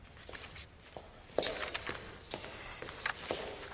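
A man walks away on foot, his steps coming as a steady, even series of soft, faint footfalls.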